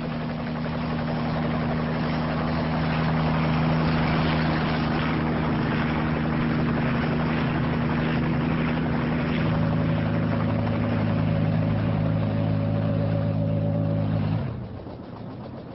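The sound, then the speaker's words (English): Helicopter flying inland and descending toward a small landing pad beside a bungalow: a steady, loud rotor and engine drone with humming tonal lines and a thin whine joining midway, then the drone drops away abruptly near the end. “After a while, the helicopter leaves the ocean and heads inland. Here we go. They descend towards a small landing pad”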